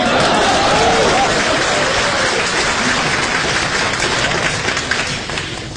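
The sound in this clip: Audience applause at a live comedy crosstalk performance: sustained loud clapping from a crowd, dense and even throughout, easing slightly toward the end.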